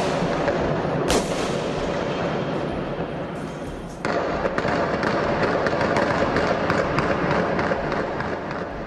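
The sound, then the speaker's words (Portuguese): Machine-gun fire rings out during an armed bank robbery by a heavily armed gang using explosives, heard from inside a house. Many sharp, loud reports come in quick succession, forming a continuous barrage. “A metralhadora é um barulho ensurdecedor, então cada barulho parecia que estava dentro da minha casa, a janela vibrava”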